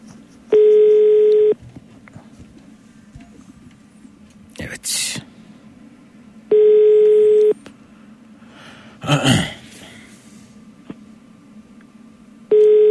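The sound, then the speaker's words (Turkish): Telephone ringback tone while calling someone: three steady, even tone bursts, each about a second long and spaced roughly six seconds apart, the last cut off. Short rustling, breathy noise bursts fall in the gaps. “Bir muhabir arkadaşım arıyorum şimdi.”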